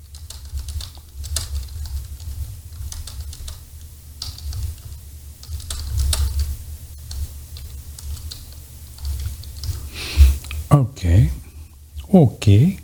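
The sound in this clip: Typing on a computer keyboard: a steady stream of quick, light clicks, with a voice speaking over it toward the end.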